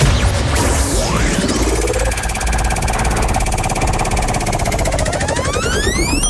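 A prize wheel spins in a game of challenges for a gift, heard as a loud, dense whirring and whooshing with sweeping tones that holds steady for about six seconds, with no talk.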